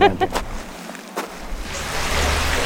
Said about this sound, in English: I'm under the bridge now, and you can hear there's a storm drain that's bringing some water into the creek here, and then the rest of the water flowing through the creek under the bridge.